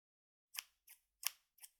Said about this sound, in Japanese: このハサミでパンツの股間のところだけを切って